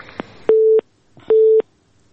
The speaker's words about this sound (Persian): تماس اینا قطع شد.